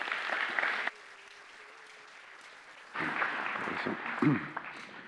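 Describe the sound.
Audience applause welcoming a speaker at a church gathering, a warm burst of clapping, a quieter lull, then a second swell of clapping with a voice briefly rising over it.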